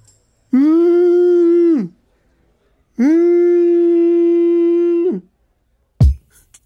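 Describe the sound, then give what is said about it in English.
A human voice imitates a whale call with two long, loud, sustained moaning tones that waver slightly and drop off at the end, followed by a brief sharp noise. “Because, you know, that was my whale sound.”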